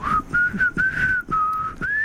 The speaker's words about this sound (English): It's hard to whistle into these mic socks we have on as well. They kind of kill the airflow a bit.